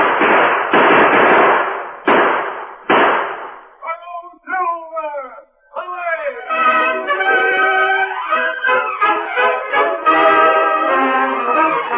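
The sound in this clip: Gunfire in a Lone Ranger radio drama: four loud, sharp blasts in quick succession, followed by men's voices talking.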